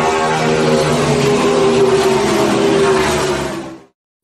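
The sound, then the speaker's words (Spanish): A car engine accelerates in first gear with a loud, steady, broad roar that holds for nearly four seconds, then cuts off abruptly into silence. “Ponemos la primera velocidad. Pisamos el acelerador.”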